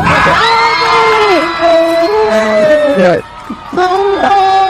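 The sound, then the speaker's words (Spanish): A loud crowd cheers, whoops and shouts in celebration of Argentina winning the World Cup, high voices rising and falling in long sustained yells with a brief dip near the end. “Argentina está festejando que ganaron el mundial”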